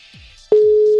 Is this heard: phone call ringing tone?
yes